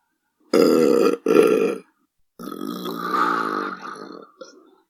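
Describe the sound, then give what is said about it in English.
Loud belching comes from a man: two short gulping bursts in quick succession, then a longer, drawn-out rumbling belch that tails off. “Was that a fart? Was that a fart or a belch? I think it was a belch.”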